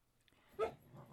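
A dog gives a single brief, faint whimper that rises out of near-quiet, with only a low murmur after it.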